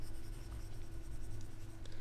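Pen scratching on paper as someone writes, a faint, continuous rustling scrape under a steady low background hum.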